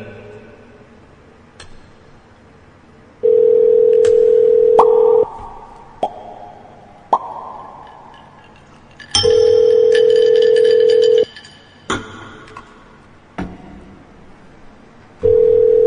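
Ringback tone of an outgoing telephone call: two steady, even beeps of about two seconds each, separated by longer gaps with scattered clicks, and a third beep starting at the very end.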